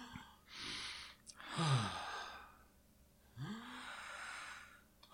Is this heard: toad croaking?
no

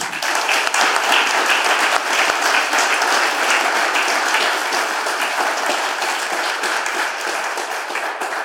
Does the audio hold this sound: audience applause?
yes

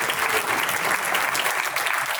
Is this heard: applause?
yes

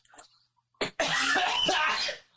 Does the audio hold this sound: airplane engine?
no

